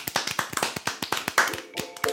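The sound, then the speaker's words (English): Hand clapping comes as many quick, sharp claps in an uneven patter at fairly low volume. “Okay, hand clap.”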